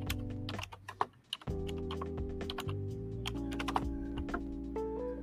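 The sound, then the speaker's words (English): Typing on a computer keyboard, a rapid, uneven clatter of many keystrokes running continuously over a steady background hum. “hold on, let me type that.”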